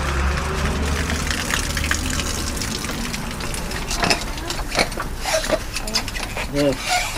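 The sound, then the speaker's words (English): Water gushes in a strong, continuous rush from a detached pipe that would normally feed into storage barrels. The steady, loud hiss holds throughout with small surges, and a voice briefly cuts in near the end. “Oh, there's great flow coming out of it, but you've detached the pipe that would connect it into these barrels.”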